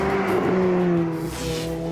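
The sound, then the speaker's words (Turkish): A Lotus Elise, a light, nimble sports car, drives with a loud, steady engine drone. A low, sustained tone holds throughout, dipping briefly midway. “1993 yılında satışa çıkmış olan Elise durduğu yerde harika görünüyor olabilir ama giderken daha da harika bir hal alıyor.”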